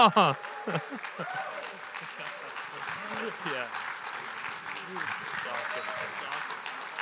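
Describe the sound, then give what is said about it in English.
An audience gives a warm round of applause to welcome a pastor arriving as guest speaker. A steady, moderate clatter of many hands continues throughout, with a voice rising over it at the start and again briefly midway. “I would love if we could just give him a very warm, full clap, standing ovation kind of welcome.”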